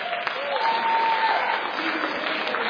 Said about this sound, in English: Somebody give God a hand clap of praise